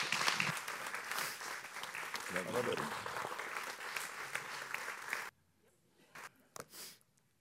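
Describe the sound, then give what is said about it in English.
Audience applause welcoming a guest speaker at a church service: a warm, sustained wash of clapping for about five seconds that cuts off abruptly, followed by a couple of brief voices. “Why don't you stand up with me? Why don't you just give a warm honor and a welcome to Charlie Coker.”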